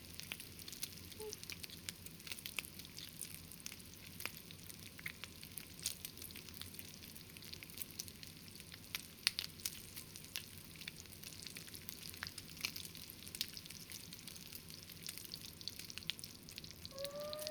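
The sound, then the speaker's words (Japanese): Karaage chicken fries in hot oil with a faint, steady sizzle, peppered with many small crackles and pops that continue evenly throughout. “そろそろいいタイミングかな。唐揚げを油から揚げて。”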